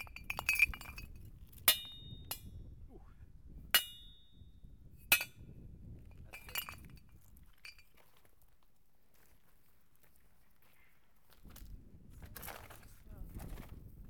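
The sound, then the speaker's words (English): Glass bottles clink several times with sharp, bright, separate taps spaced unevenly over the first several seconds. A quiet stretch follows, then a low, soft rumbling returns near the end. “because that bar and the bottle actually have a different sound. Yeah. There's another bottle.”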